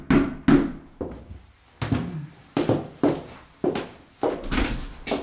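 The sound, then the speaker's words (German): Knocking on a house's front door: a series of hollow, resonant thumps with short decays, unevenly spaced and heard alone. “Stattdessen klopfte es an der Haustür.”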